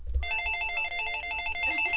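A telephone rings with a bright electronic warbling tone, repeating in a steady pattern. It starts after a short low thump and continues to the end without talk.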